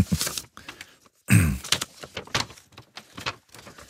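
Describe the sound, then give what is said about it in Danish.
A light-blue paper envelope being opened: a run of crisp crinkling and tearing bursts of paper with brief pauses between them, one louder rip near the middle. “Der ligger også en lysblå kuvert i rummet. Den må jeg også gerne åbne. Nu åbner jeg den anden, så kan du åbne den.”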